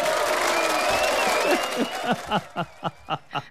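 Applause from an audience starts as a full, dense patter, then thins out into a few separate, slower claps that stand apart toward the end.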